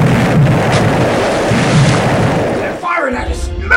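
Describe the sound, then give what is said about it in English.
Deep rumbling booms from a warship's guns firing at a submarine form a loud, continuous roar that drops away briefly near the end. “He had sighted the mysterious man of war. The ship fired at us.”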